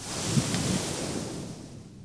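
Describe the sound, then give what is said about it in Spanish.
A person in a religious talk blowing out a long breath, a steady, breathy rush of air that fills the whole moment and eases off slightly toward the end, with no talk over it. “Sopla sobre ellos, así.”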